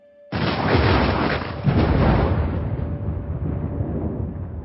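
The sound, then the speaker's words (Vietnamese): Thunder booms outside an abandoned ancient fortress during a storm: a sudden loud crack bursts in, then a heavy, sustained rumble rolls on and slowly thins over several seconds. “bây giờ tiếng sấm ngoài trời đang nổ liên hồi”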